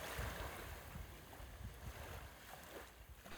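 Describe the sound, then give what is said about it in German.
A sailing boat with its mast raised and sail set heads out onto the sea at night. Low wind buffeting and the wash of water against the hull rumble on continuously. “Er richtete den Mast auf, setzte das Segel und fuhr hinaus in die Nacht, in die Dunkelheit.”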